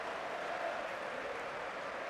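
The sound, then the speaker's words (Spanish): Teammates applaud during a footballer's welcome. The clapping is dense and continuous, forming a steady wash of sound at an even, moderate level with no breaks. “Tus compañeros aplauden.”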